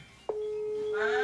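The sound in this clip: A telephone rings with an incoming call from Papa: one steady electronic tone sounds after a short quiet start and holds for about a second.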